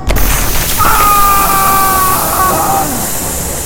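An explosion on a starship bridge in a space battle hits loudly at once and gives way to a sustained roaring rumble, with a thin whining tone drifting through it as the roar slowly fades.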